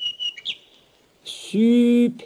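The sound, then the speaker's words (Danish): A nightingale singing in a fairy tale is voiced by short, high chirps and whistles, followed by a steadier, lower tone rich in harmonics. “Og så kom nattergalen frem. Den sang så dejligt, at man lige straks ikke kunne sige noget ondt om den.”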